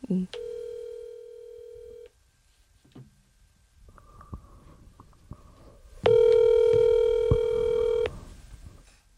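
Telephone tones from a call being placed to someone who then does not answer: a steady electronic tone, faint clicks, and a second, louder sustained tone near the end.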